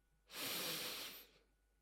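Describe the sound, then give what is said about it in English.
A deep, slow breath during a guided relaxation exercise: one soft, airy hiss that swells and fades over about a second, heard alone and fairly faint. “Take another deep breath in.”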